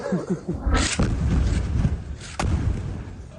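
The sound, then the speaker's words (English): Heavy booming impacts from an Israeli airstrike hitting a desalination plant in the Sheikh Radwan neighborhood of Gaza City, two sharp blasts about a second and a half apart, each followed by a rolling rumble. “This is the moment the attack targeted a desalination plant in the Sheikh Radwan neighborhood.”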